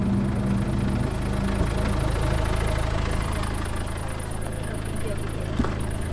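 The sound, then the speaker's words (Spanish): A car engine idling before refuelling, a steady low rumble with an even, unbroken hum that holds at the same level from start to finish. “Voy a echarle gasolina al coche.”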